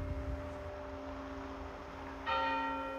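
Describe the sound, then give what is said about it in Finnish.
Church bells ringing during a service in Lavia, Pori: sustained, steady bell tones hum faintly, then a fresh strike near the end brings a brighter, louder ring with no voices. “Kirkon kellot soivat Jumalan palveluksen alla Porin Laviassa.”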